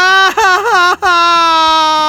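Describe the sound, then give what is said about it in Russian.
A baby girl cries loudly, first in broken, quavering wails, then in one long, steady, high wail. “А зачем она плачет? Скучно ей.”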